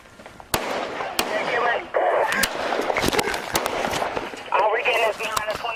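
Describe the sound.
Gunfire from repeated shots behind a police district building, with many sharp, loud cracks at irregular intervals over constant noise while voices talk.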